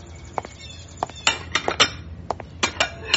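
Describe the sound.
Dishes and cutlery clink as a large plate of cake is brought, with many sharp, irregular clinks and taps of china and metal and no voices.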